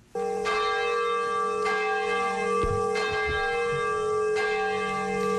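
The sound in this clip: A large bell rung at a memorial ceremony for the atomic bombing of Nagasaki: several deep, resonant strikes, each blooming into a long, rich ringing hum that sustains loudly between blows, with no talk.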